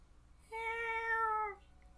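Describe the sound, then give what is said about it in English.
A single drawn-out cat meow from a cat outside a window at night, steady and tonal, lasting about a second and heard alone against a quiet background. “"Meow." The fucking cat.”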